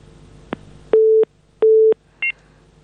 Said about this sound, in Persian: فکر کنم تماس شنوندی ما قطع شد.